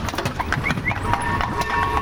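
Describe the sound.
Horses' hooves clip-clop over tram rails in a pedestrian zone in Chemnitz, a steady stream of many hoofbeats set against a broad, noisy outdoor background.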